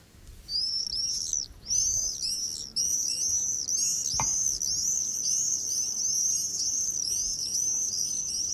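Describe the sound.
Common swifts screaming overhead in July: a shrill, very high-pitched, near-continuous trilling scream with short breaks early on and a single dull thump partway through.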